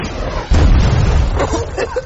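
A loud blast from a real rocket launcher fired inside a house: a sudden boom with heavy low rumble that stays dense and noisy to the end.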